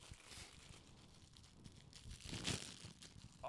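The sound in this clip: Packaging crinkles and tears faintly as bandanas are unwrapped, with soft rustling that builds to a louder crackle near the end.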